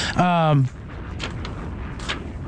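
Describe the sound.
An explosion sound effect fired from a soundboard button during football picks talk: one short, loud burst with a falling whine in the first half second, then quieter, noisy background.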